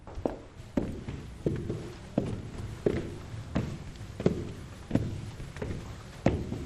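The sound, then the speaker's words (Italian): Footsteps climb a staircase inside a historic villa in Rome: a steady, evenly spaced series of soft, quiet thuds over a faint hiss, with no talking. “Qui siamo all'interno della villa, stiamo salendo per le scale che portano al, al primo piano.”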